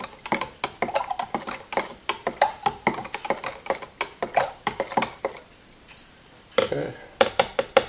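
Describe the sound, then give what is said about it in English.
A paddle stirs liquid photo developer concentrate, giving many quick rhythmic knocks and clinks against the container, with a brief pause before the tapping resumes. “So I have a paddle here now. I'm going to mix it up.”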